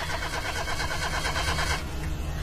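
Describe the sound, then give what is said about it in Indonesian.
A car engine cranks over and over without catching, giving a steady, rhythmic churning grind at moderate loudness that runs the whole time with no sign of firing up. “Tapi entah kenapa mobil Ega tak mau menyala. Mati.”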